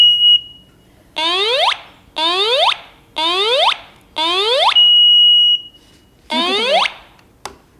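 A smoke alarm sounds when its test cord is pulled, giving five loud, harsh warbling bursts in a regular rhythm. Steady high-pitched beeps come at the start and again midway.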